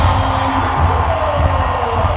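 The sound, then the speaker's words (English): Loud, sustained crowd roar fills an arena at a sold-out Fever basketball game as the starting lineup is announced, a dense, steady wall of cheering with a low rumble underneath throughout. “the crowd erupted in deafening cheers as the Fever's starting lineup was announced.”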